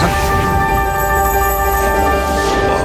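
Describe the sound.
Music plays from a toy magic chalkboard: a steady blend of sustained, bright electronic tones held at an even, fairly loud level throughout, with no clear breaks.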